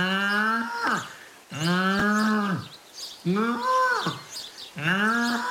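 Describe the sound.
A calf moos four times. Each call is loud, drawn-out and harmonic and sags in pitch at its end, with short pauses between the calls.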